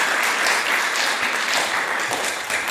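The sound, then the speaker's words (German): An enthusiastic audience applauding in a hall during an event, with dense, continuous clapping from many hands, loud and steady from start to finish and no talking. “Die Leute klingen begeistert.”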